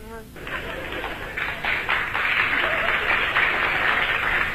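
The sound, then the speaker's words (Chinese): Audience applause at a performance. After a brief voice, clapping starts and swells into steady, dense applause that continues to the end. “那个鼓掌的人不多呀，鼓掌的人都是南方人。”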